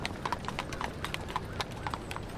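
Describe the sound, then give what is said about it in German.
Hooves clip-clop steadily as horse-drawn carriages pass by on an autumn day, many overlapping hoof strikes in a quick, even rhythm at moderate volume. “Pärchen sitzen in zahlreichen Kutschen. Eng aneinander gekuschelt reiten sie an mir vorbei.”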